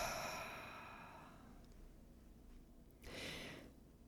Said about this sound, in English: let's just take a deep breath in through the nose and exhale out.